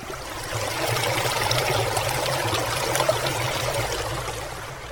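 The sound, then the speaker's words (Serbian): Water from a stream that divides the El Paso City theme park into cowboy and Indian sections, flowing in a steady, even babbling rush with no breaks. “Sada smo čuli zvuk vaših potoka koji deli tematski park El Paso City na dva dela, dakle na kaubojski indijanski deo”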